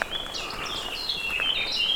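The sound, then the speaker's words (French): Birds singing outdoors on a heavy, overcast day: faint, high chirps and trills overlap continuously above a soft, steady background hiss. “commence à s'épaissir, ce qui n'empêche pas les oiseaux de chanter.”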